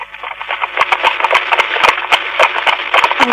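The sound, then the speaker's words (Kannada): Horses gallop in a rapid, irregular run of sharp hoof thuds over a steady noisy bed, fairly loud and continuous throughout. “ಅಲ್ಲಿ ಕುದುರೆಗಳು ಓಡ್ ಓಡ್ ಬರ್ತಿರೋ ಶಬ್ದ ಕೇಳಿಸ್ತಿದೆಯಲ್ಲ.”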